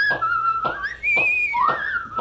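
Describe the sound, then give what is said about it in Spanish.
People whistle a bright, steady tune that slides up and down in pitch, with soft rhythmic breathy pulses beneath the clear tone and no talking. “Pongámonos a silbar, hombre, para que no nos chotee. Silbemos.”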